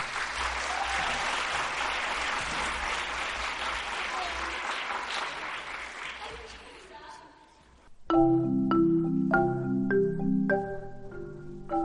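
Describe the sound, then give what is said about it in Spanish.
Audience applause at a music school summer festival in Guadalix de la Sierra: dense, steady clapping for about seven seconds that tapers off, followed by instrumental music with plucked and sustained notes. “Así que un fuerte aplauso, por favor.”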